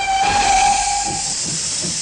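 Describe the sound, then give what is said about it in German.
An old steam locomotive on a museum railway lets off a loud, constant hiss of steam, with a steady whistle tone sounding over it for about a second before fading while the hiss carries on. “So ein richtig feine, ole Dampflok.”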